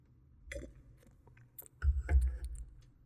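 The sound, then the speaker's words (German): Someone takes a sip of a drink during a tasting: soft, wet mouth sounds and small clicks, quiet at first, then a fuller gulping swallow near the end. “Ich nehme noch mal einen Schluck, weil der einfach wirklich fein ist.”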